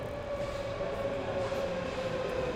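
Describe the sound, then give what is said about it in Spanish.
A metro train arriving at a station gives a steady, continuous rumble with a thin whining tone running through it, heard alone without talk. “Vamos a llegar que llegue el metro.”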